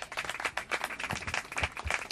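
Audience applause for a musical director, made of quick overlapping hand claps that pulse unevenly. The clapping stays fairly faint throughout.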